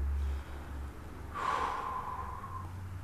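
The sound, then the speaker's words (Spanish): One slow, deep inhale, an airy, breathy hiss lasting about a second that swells and fades over a faint low hum. “Inhala profundo.”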